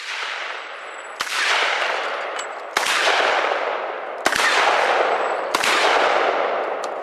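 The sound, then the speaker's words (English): A magazine-fed shotgun fires a salute: four loud, sharp blasts at roughly even intervals, each followed by a long decaying rumble that fades before the next shot. “This is the most American way I can think of giving Callum a send-off, a 20-round salute with a magazine-fed shotgun.”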